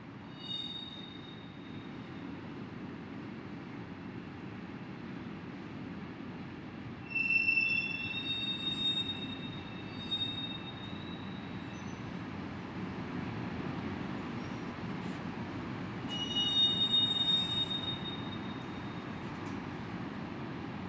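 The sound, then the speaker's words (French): Train wheels squeal at a rail marshalling yard over a constant low rumble of rolling stock. Thin, high-pitched metallic squeals swell twice and grow louder for a few seconds each time, then fade back into the steady noise. “Je ne fais pas de bruit, je suis à l'orée d'une gare de triage de train.”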